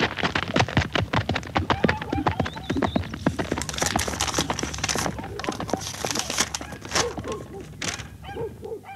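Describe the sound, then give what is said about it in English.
Horse galloping away from a house, heard as many quick, clopping hoofbeats in a busy, fairly steady run that continues to the end. “I signed for it, and he galloped off.”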